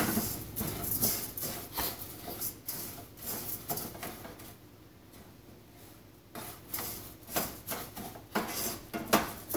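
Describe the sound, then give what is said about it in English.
Pasta being stirred in a pot, with many irregular knocks, scrapes and clinks of a utensil against the pot that keep coming at an uneven pace, dipping briefly in the middle. “Okay, all the pasta's in, so you just pretty much stir it consistently. It's not something you want to leave lying around or else the pasta might get singed or whatever.”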